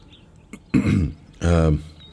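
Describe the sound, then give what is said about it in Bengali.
A man's throat clearing during a narrated Feluda detective story: two rough, gravelly bursts, the second longer and more voiced, standing alone against quiet. “Feluda এবার একটা গলা খাঁকরানি দিয়ে আমার কাছ থেকে শোনা ঘটনাটা বলে বলল”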